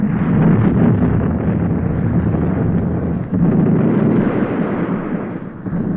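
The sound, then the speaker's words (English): Heavy artillery barrage from the British 8th Army at El Alamein: a loud, continuous, low-fidelity roar of overlapping blasts that barely lets up, with one brief dip midway. “The sounds you are listening to now are the sounds of the 8th Army's artillery barrage blasting open at El Alamein”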